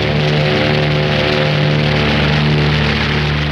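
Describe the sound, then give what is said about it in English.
Bomber plane engines roar as they rev for takeoff down the runway, a loud, dense, unbroken drone with a deep humming undertone that holds steady throughout. “gives the signal to rev, then motions the plane down the runway with a broad swipe.”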